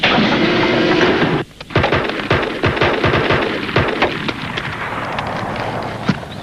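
Gunshots fired into the air as a warning: after a loud rushing noise and a brief drop, many sharp, loud cracks follow in a rapid, irregular burst, then trail off into a noisy wash.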